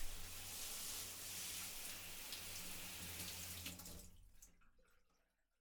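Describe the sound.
Water runs to rinse someone's back, a faint, steady splashing hiss that continues for a few seconds, then trails off into near silence at the end.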